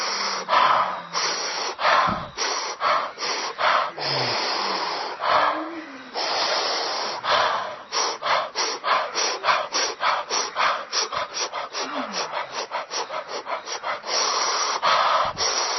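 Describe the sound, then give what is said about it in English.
A person doing a breathing exercise, inhaling with an 'ooh' mouth shape and exhaling with an 'ah' shape. Long, airy breaths give way to a fast, rhythmic run of many short puffs, then slower breaths return. “ooh on the inhale, ah on the exhale”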